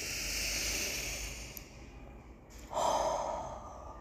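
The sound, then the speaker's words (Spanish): A group of people at a school gathering takes a deep breath together, heard as a soft, breathy rush of air that fades, then a second brief swell near the end. The sound is quiet. “Invito a todos a tomar un gran respiro, una gran bocanada de este aire escolar. Vamos, hagámoslo juntos.”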